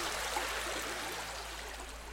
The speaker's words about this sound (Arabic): وسلك بجانب نهر حفر مؤخرا